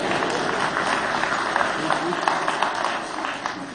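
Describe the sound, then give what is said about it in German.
An audience applauds during a German church service, many hands clapping in a dense, steady patter mixed with voices, fading slightly toward the end. “Ja, also das ist ein Applaus wert, oder?”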